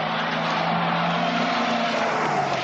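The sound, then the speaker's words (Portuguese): A car engine drives on steadily in a zombie-apocalypse scene, with a zombie at the wheel. The low hum holds an even pitch under a broad rushing noise, with no voices. “Que isso? Zumbi dirige? Zumbi? O zumbi tá dirigindo? É isso mesmo?”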